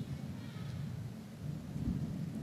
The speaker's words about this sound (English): Oh, this is nice, isn't it? Okay, we got a little wind action.